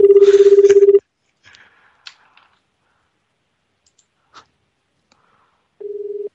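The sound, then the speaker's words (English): Phone ringtone sounding as a pulsed, steady low tone in two bursts, the first about a second long and a shorter one at the end, separated by near-silence with a few faint clicks. “Oh, whoa, what's this ringtone? It's like Bulgaria.”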